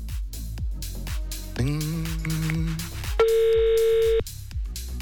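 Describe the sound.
Telephone ringing on a live call line, heard as a steady electronic ring tone over a rhythmic music bed, with one long flat beep before the music carries on.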